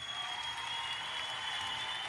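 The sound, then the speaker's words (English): A clapping sound effect: a steady, dense wash of many hands applauding that holds at an even level for about two seconds, with no voices. “Let's insert this new clapping effect that I got.”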